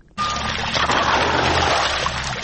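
Water flows as a 45-year-old farmer irrigates his fields in the Talani area north-west of Tarinkot, a steady, loud rushing that starts abruptly and keeps on without a break.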